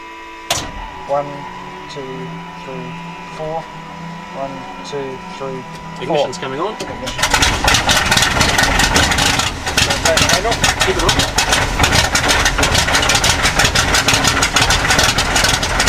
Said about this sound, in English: So now we're just winding up the big starting clutch.